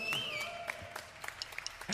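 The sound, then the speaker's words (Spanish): Applause from the audience at a live funk band concert, greeting the drummer as the band is introduced. A few separate claps and sharp hits sound over a thin background, with no dense, sustained ovation. “Un aplauso para él.”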